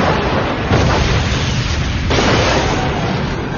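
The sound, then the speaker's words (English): Grenades explode with a loud, continuous roaring blast noise and a couple of sudden bursts within the rumble. No voices are heard. “The grens exploded, spreading shrapnel.”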